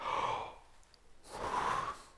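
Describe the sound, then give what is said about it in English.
A deep breath drawn as a singer would take before a musical phrase: two airy, breathy swells, the first at the start and a longer one after a short quiet pause, with no talking. “I'm reminded again of the importance of taking a proper breath.”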